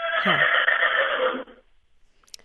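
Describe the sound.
Horses neighing in barn stalls at a fairgrounds: one loud, sustained whinny lasting over a second with a shaky, falling edge, then near silence with faint rustles and a brief click at the end.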